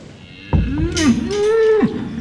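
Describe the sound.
A beef cow from a farm herd of young bulls moos alone: one long, low, drawn-out call that wavers slightly in pitch before cutting off.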